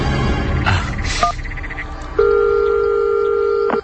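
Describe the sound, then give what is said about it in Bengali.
A landline telephone being redialled: a few short keypad beeps over a noisy background, then a loud, steady two-tone line signal that holds for about one and a half seconds. “না, phone ধরছে না কেন? আবার ডাক করি।”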